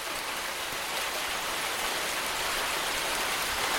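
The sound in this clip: Steady rain falls outdoors around an airport, an even, continuous hiss that holds at one level throughout with no voices.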